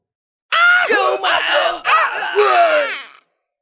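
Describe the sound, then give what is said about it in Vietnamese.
Anguished screams rise from a crowd of immortal cultivators struck by golden sword energy in a fantasy battle. A few loud, wailing bursts run almost back to back, then break off into silence. “Tiếng kêu thảm thiết thê lương vang lên không ngớt.”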